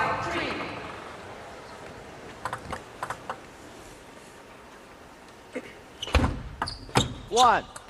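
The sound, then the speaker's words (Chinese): Crisp table tennis ball strikes off a paddle blade during a match: several sharp, dry knocks in small clusters, faint against the background, with a commentator speaking at the end. “击球击得非常实啊，能够听到清脆的底板的声音。”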